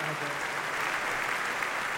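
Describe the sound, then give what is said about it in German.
Audience applause at the opening of a music festival: an even, continuous patter of many hands clapping, fairly faint and steady throughout. “Ja, hallo, vielen Dank für den Applaus.”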